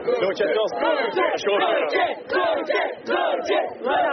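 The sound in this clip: Crowd cheers and chants for a young scout after a papal appearance, loud shouted bursts rising and falling in a steady rhythmic pattern, many voices together throughout.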